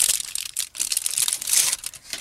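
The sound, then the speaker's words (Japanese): Silver foil wrapper being crinkled and torn open around a piece of chocolate, giving a continuous bright, crackly rustle with irregular sharper bursts. “銀の紙に入ってて美味しそうだな。あれこれどうやって開けるんだろう破るのか。”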